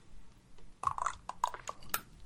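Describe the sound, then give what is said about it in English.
Someone takes a little sip of water: a few soft, wet slurping and swallowing sounds, quiet and heard alone. “Another little sip of water.”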